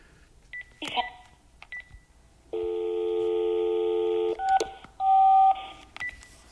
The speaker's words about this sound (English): Fucking secret code? What is this? This is some weird phone number and stuff.